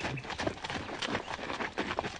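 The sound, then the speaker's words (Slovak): Hoofbeats of saddled horses setting off at a quick pace: dense, rhythmic thudding with rough noise throughout, without talk. “Na dohodnutý deň osedlali bratia kone a šli pre svoje nevesty.”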